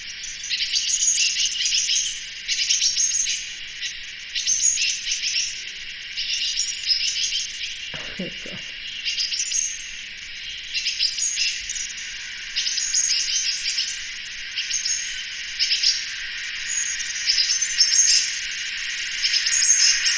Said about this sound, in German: mache ich auch diesen Bettelruf einmal, dass man den gehört hat, mach oder? Doch mal. Ja, bitte. Also das war hier auf meinem Balkon nonstop.